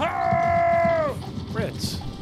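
A drawn-out creaking groan suggesting old wagons: a steady, reedy tone that drops sharply in pitch after about a second, followed by a few shorter, rougher creaks and rattles.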